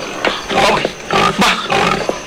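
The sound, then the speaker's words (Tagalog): Pig squealing: a few loud, harsh, noisy bursts follow one another with short gaps between them, and no talk is heard. “Baboy, kag nagasugata siya sa akon. Baboy nga nagabakya!”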